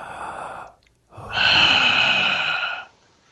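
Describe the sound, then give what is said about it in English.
A breath drawn in through the mouth, a loud, airy rush lasting over a second, preceded by a softer breathy sound and a brief silence, with no talk over it. “we're going to take a quick little breath.”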